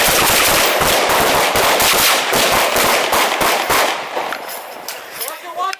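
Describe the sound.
Gunfire at a site during a reported contact: many loud shots in rapid bursts that crack one after another and thin out toward the end.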